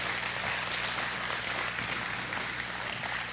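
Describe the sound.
A church audience applauds to welcome a guest speaker, a steady, dense wash of clapping from many hands that holds at an even level throughout.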